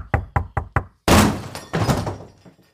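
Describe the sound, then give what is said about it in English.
A fist pounds on doors: four quick, even knocks, then a heavy booming bang that rattles and decays, followed by another rougher thump and a fading rattle. “I'm just going to start walking down through and just start beating on random people's doors.”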